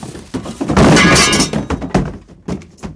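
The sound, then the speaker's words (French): A loud crashing thump as a pile of children tumbles down, a broad rumbling impact lasting under a second, followed by a few smaller knocks and thuds that trail off. “la montagne d'enfants tombe sur Horribilis”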